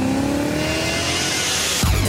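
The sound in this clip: A BMW car with an automatic transmission revs its engine; the tone climbs steadily in pitch, loud and alone, then breaks off abruptly just before the end.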